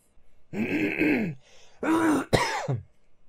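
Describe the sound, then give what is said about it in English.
A person clears their throat with mucus: two harsh, gurgling bouts separated by a brief pause, the second ending in a sharp rasping catch and a low grunt. “I've just cleared the shit out of my throat.”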